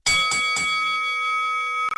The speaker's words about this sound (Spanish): Sonar esa campanita para anunciar nuestro debate.